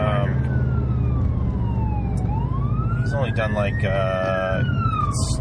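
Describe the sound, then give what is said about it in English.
A fire truck siren passes on the other side of the road, heard from inside a car. Its wailing tone sweeps down and then back up, with some quicker warbling bursts, over a steady rumble of engine and road noise. “You're not getting pulled over. No, there's a fire truck on the other way.”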